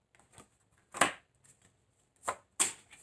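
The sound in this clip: Tarot cards being shuffled and drawn: a few soft, papery flicks and snaps in an otherwise quiet stretch, the later ones sharper and louder, with no talking.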